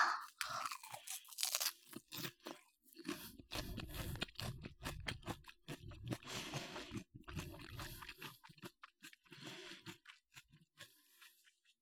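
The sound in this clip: Raw cabbage mixed with salted kelp being chewed, giving many quiet, crisp crunches in an uneven rhythm with brief pauses between bites and no talk.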